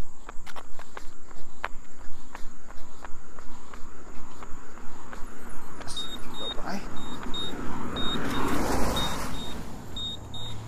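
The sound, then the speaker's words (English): Running footsteps of a person out for a run, a steady run of rhythmic footfalls that is clearest early on, with high insect chirping throughout and a passing car swelling near the end. “So there we go. Anyway, so I'm getting in my last run of the week being Friday.”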